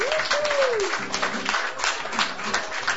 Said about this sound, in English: Absolutely the best open stage audience in the city without question. We are so fortunate here. Yeah, give yourselves a hand.